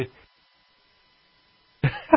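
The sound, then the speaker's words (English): A sneeze: a short, loud, voiced burst with a sharp attack that breaks a near silence, with a brief fainter sound at the very start. “What are you laughing about? Because it's not you sneezing, right? It's me.”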